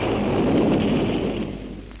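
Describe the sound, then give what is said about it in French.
Artillery fire from a revolutionary army comes through as a loud, sustained low roar with no separate blasts, gradually fading over the last second. “L'artillerie de l'armée révolutionnaire. C'est la fin.”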